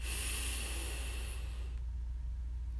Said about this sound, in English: Let's take another breath in, breathe in